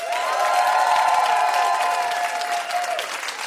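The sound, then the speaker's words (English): Audience applause for a mystery guest: dense, steady clapping mixed with some cheering, holding level for a few seconds and easing slightly at the end. “Everyone give it up for our mystery guest, Chloe Swatner.”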